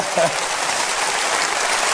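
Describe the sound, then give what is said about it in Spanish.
Audience applause fills the whole stretch as a dense, steady wash of clapping at an even loudness, with no clear break or swell. “Si van a aplaudir, aplaudan bien, hombre.”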